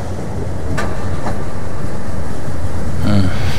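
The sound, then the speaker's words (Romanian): A passenger train runs on rails, heard from inside: a loud, continuous rumble with a few sharp clicks and rattles breaking through. “E atâta lumină și liniște în Transferoviar. E un tren bun de lectură.”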